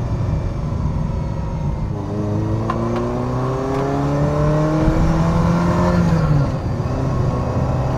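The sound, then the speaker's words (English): A Ferrari Mondial T sports car accelerates while driving. The engine tone climbs smoothly for several seconds, then drops sharply and settles into a lower hum, with steady road and wind noise throughout. “I just want to keep driving and driving and driving. In no way does this car feel finicky to me.”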